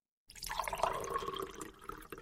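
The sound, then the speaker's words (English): Coffee being poured out, a steady liquid splash and trickle running for about two seconds before tapering off. “We'll pour a little coffee out for Proxmox.”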